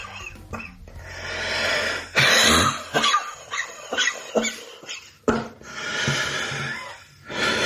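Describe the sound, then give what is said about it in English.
A man wheezes and coughs while smoking a cigarette during an asthma-like attack. Many harsh, loud coughs break up raspy, labored wheezing breaths and gasps, with no talking. “he's certainly going through like some sort of asthma attack while he's smoking his cigarette. Smoking through the wheeze.”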